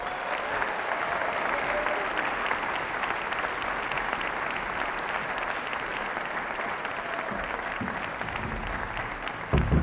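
An audience applauds to welcome a group of musicians, with dense, steady clapping that holds loud and even for about ten seconds.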